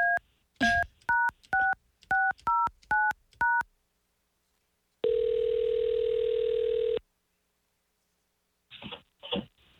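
Telephone keypad tones dial a number as eight quick, evenly spaced two-pitch beeps, followed by a pause, a steady two-second ringing tone, and a few short, faint bursts at the end.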